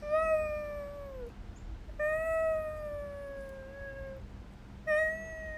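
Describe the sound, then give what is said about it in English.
A person imitates a cat meowing: three drawn-out, harmonic meows, each sliding gently downward in pitch. The first two are long and the last is short and abrupt, with pauses between them. “Oh, and I have such a good cat voice. Ready? Yeah.”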